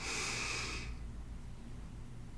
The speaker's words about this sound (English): Take a deep inhale.